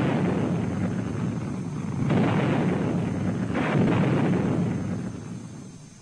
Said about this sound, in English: Little John is being developed as a lightweight missile primarily for use by airborne troops. To increase its accuracy, it spins before firing.